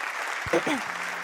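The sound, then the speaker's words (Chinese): Applause during a live thank-you session: a soft, continuous wash of clapping with one brief voice sounding over it. “满满掌声让我收到了哈”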